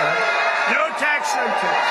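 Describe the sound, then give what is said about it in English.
A rally crowd in Las Vegas cheers President Trump with whoops and shouts that stay loud and steady throughout, under raised, overlapping voices. “The crowd cheering President Trump at a Las Vegas rally, repeating a campaign promise.”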